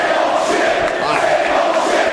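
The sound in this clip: Wrestling arena crowd booing John Cena during a match against Rob Van Dam, a brief, loud, continuous roar of many voices with no single shout standing out.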